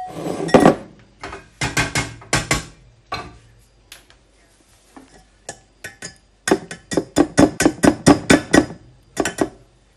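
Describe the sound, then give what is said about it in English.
Metal clinks and taps of a sieve against a bowl as herbs are strained out of hare gravy: many sharp, bright knocks, loosely clustered at the start and then in a quick rhythmic run near the end, with no talk. “Okay, I'm just going to sieve it into a bowl.”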